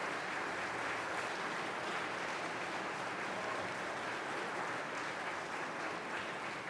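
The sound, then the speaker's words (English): Audience applause for a chamber ensemble at a live concert in Preston Bradley Hall, Chicago Cultural Center: dense, even clapping that stays sustained at a steady level for the whole stretch. “Fifth House Ensemble, getting quite a reception from the audience today at Preston Bradley Hall.”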